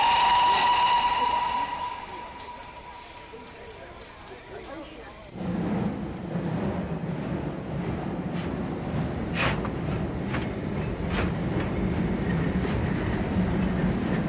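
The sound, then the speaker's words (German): An express train pulling out of a station, opening with a faint tonal hiss, then from about five seconds a steady, loud rumble of rolling wagons with intermittent clatter that continues to the end. “Bitte einsteigen und die Türen schließen. Der Zug fährt ab.”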